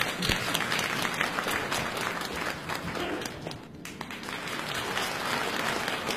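Audience applause at a live Beijing comedy show as an improvised crosstalk act is introduced: a thick, continuous patter of many hands that dips briefly midway, then carries on at a moderate level.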